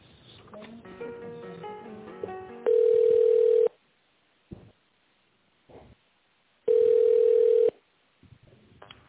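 Steady telephone line tone heard while a business call is being transferred to a manager: two even one-second tones about four seconds apart, with faint muffled sounds in the quiet gaps.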